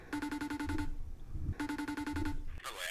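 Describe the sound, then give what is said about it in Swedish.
Phone ringing tone of an outgoing call, two quiet bursts of rapidly pulsing electronic tone separated by a short pause. “Men jag har tänkt om man kanske, vi kanske ska ringa Johan.”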